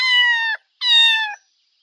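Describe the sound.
A cat meows twice, each meow about half a second long and bright with rich harmonics, the pitch sagging slightly at the end; a short silence separates the two calls.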